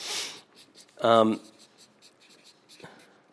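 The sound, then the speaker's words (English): A pen scratches across paper as a few words are written down, soft rubbing strokes around a brief louder voice. “So I'm going to write this down.”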